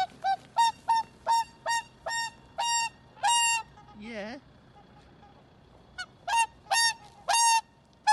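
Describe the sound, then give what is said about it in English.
A noisy 30-year-old swan honks while being given a birthday cake at Leeds Castle near Maidstone in Kent. Many short nasal honks come in a steady rhythm, then a brief pause, then another run of honks. “you can see a video of a rather noisy swan being given a birthday treat at Leeds Castle near Maidstone.”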